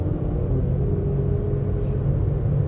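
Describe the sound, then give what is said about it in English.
Cars racing on a street early in the morning make a steady, loud low engine rumble that continues without pause. “These people are racing early in the morning.”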